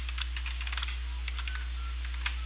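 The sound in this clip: Typing a message on a phone or computer: quick, irregular soft key taps over a thin telephone line with a steady low hum beneath.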